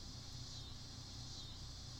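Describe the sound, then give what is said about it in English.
Faint cicada buzzing in the background, a continuous high, hissing drone with gentle swells, heard alone without voices. “Is that a cicada? Probably. If you hear that in the background, that is the... Is it a fire alarm or cicada? Cicada.”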